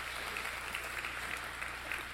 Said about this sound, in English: Let's give all of our folks online a hand right now. Welcome them.